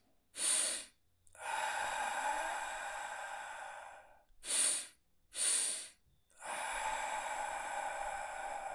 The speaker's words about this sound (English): We do this thing called a double inhale and a longer exhale, okay? So a double inhale and a longer exhale.